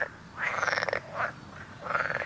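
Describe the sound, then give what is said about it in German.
Frogs croak in reeds by water at a remote natural spot, giving a few rasping, rattling croak bursts of varying length. Short quiet pauses separate the bursts, and the croaks are moderately loud against a low background. “Und man hört ganz viele Geräusche von Tieren. Auf jeden Fall Vögel, dann noch ab und zu Frösche.”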